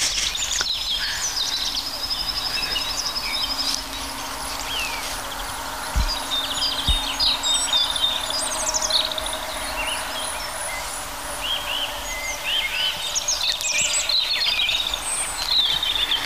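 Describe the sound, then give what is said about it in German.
European robins sing in a dense little wood of old oaks and deadwood, several birds overlapping in high, thin, tumbling warbles and trills over a steady low hum, with two brief low knocks midway. “Unser Rotkehlchen, die so richtig in Fahrt kommen gerade. Also die Rotkehlchen übertrumpfen sich gegenseitig.”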